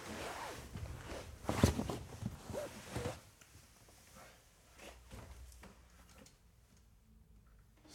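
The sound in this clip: Footsteps on stairs as someone walks downstairs carrying a recorder, with a few irregular thumps and rustles clustered in the first three seconds, then fading to quieter, sparse taps.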